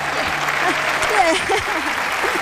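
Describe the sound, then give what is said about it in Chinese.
Applause congratulating a two-person team on their game score, steady clapping from start to end with voices talking over it. “恭喜我们的苗洞组合， 一个掌吧。”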